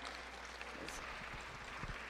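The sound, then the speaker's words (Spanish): Applause for a speaker at the close of an international book fair: brief, faint, steady clapping over a dense hiss, with a few sharper claps near the end. “Bueno, pues un aplauso a la doctora.”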